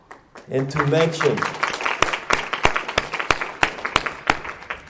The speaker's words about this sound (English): I would like to applaud all of them